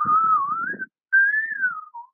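High, pure whistle-register singing note in two phrases: a wavering sustained pitch, a short pause, then a second line that drifts gradually downward and ends on a brief lower note.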